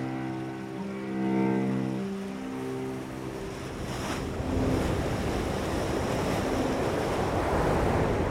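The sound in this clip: Sea waves wash in at the shore, a broad, steady rush of surf mixed with wind. It is quieter at first, then grows into a fuller, constant roar through the second half, with no voices.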